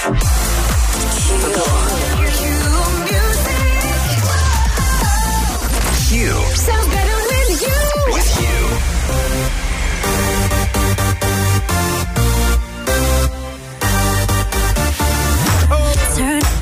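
A dance-pop track plays on the radio, loud and dense, with sung vocals over a pounding, steady beat and a brief dip near the end.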